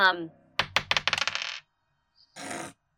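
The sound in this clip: Dice rolled onto a hard surface give a quick run of clattering bounces that come faster and fade. After a pause comes a short burst of rattling.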